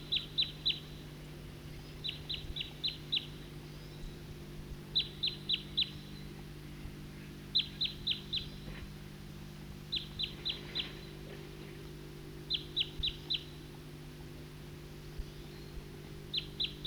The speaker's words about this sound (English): I just played that back, and while I did that, a number of type 2 birds flew over and went to the southeast,